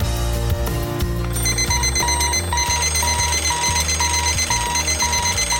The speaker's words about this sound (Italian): che incubo questo, proprio un suono brutto con cui risvegliarsi. È il suono della sveglia